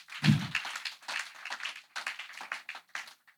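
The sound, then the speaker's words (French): A church audience acclaims the word of God with faint, scattered clapping. Quiet, uneven bursts of claps come in loose clusters. “Est-ce qu'on peut acclamer la parole de Dieu?”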